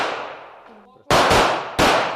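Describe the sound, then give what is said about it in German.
Pistol shots at a shooting range: three loud, sharp cracks, two in quick succession and then a third after a short pause, each followed by a brief decaying ring. “10 Schüsse pro Durchgang darf jeder abgeben, auf eine Entfernung von gut 10 Metern. Dann schieben die 5 ihre Pistolen zurück in die Holster.”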